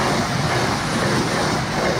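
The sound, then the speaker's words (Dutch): Train passing on a busy railway track, a loud, unbroken rumble with rail clatter running the whole time, no voices. “We staan hier nog geen 5 minuten, al de derde trein.”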